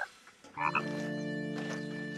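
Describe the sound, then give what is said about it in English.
Frogs croak in a steady, droning chorus that begins after a brief quiet stretch, holding a buzzy, harmonic tone through to the end with no talking. “After 9 weeks, our friends look like little tiny frogs with tails. We almost have full-grown frogs here.”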